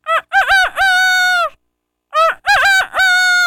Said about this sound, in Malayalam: ഇനി കുയിൽ. അടുത്തത് പൂവാങ്കോഴി.